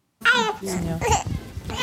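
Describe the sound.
A baby babbling in a former ox stable converted on a farm, a short run of high, bright coos and squeals broken by brief pauses.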